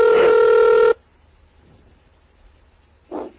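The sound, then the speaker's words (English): One telephone ring, a steady buzzing electronic tone of about a second, sounds on a phone line dialed by terminal software on a computer. Near silence follows, then a brief muffled sound at the end. “Now this one should pick up. I dialed up this phone using Hyper Terminal.”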